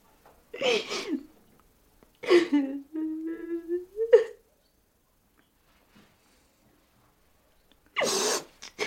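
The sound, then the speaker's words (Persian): A person crying: three separate bursts of breathy sobbing, the middle one stretching into a drawn-out, wavering whimper, with quiet gaps between them. “چرا گریه میکنی؟”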